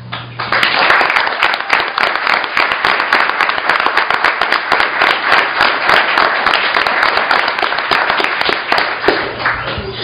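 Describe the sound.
Applause congratulates a new police officer on joining the agency, just before he is sworn in. Sustained, even clapping carries on for about ten seconds without a break.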